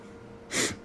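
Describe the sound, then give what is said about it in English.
A single short sniff through the nose: a brief, soft hiss of drawn breath. “Sniff.”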